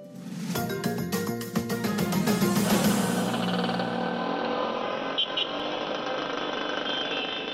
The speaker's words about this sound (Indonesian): Suara kendaraan bermotor semakin dirasakan mengganggu bagi banyak orang di kota-kota besar Indonesia.